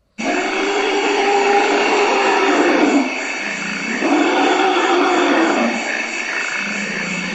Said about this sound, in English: Here's the sound of forest elephants in Central Africa, reported 11 years ago by NPR's Radio Expeditions.